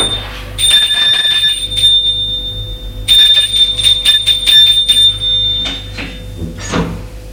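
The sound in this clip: A doorbell rings at a small furnished apartment rented by the week. It gives two sustained, shrill bursts separated by a short gap, with rattling and a low hum beneath.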